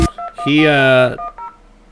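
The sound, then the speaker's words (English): Tones from dialing a traditional landline telephone: a few short, clean beeps, then a longer voiced tone, then more brief beeps, all crisp and fairly loud. “we'll have to call him, of course, as always, on the traditional telephone”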